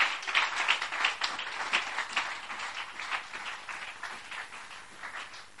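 A church audience applauds for God during a sermon, with many hands clapping in a dense, uneven patter that swells and eases over several seconds.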